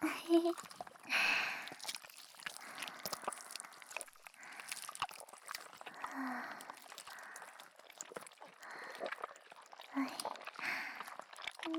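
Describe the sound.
Wet, sticky squishing as slime is kneaded and played with, giving irregular squelches and soft crackles that carry on throughout at moderate loudness.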